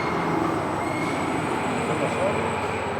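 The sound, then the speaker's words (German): An overhead crane moves through a waste incinerator slag bunker, making a steady, dense mechanical rumble with a thin high whine over it. The sound keeps a constant loudness throughout. “Da sehen Sie auch unseren Kran, der kommt hier gerade an.”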